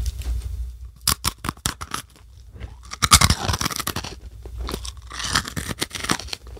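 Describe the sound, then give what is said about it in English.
Crunching of extra-dark, extra-crispy pretzels being bitten and chewed close up, many sharp crackly bites in quick bursts, then denser munching that swells and fades with short gaps between. “Extra dark pretzels, extra crispy, extra. Snack with me.”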